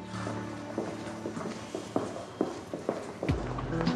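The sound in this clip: Footsteps of a person marching away: several firm, evenly spaced steps at a brisk pace, faint and alone.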